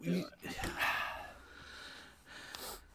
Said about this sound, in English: I sneezed.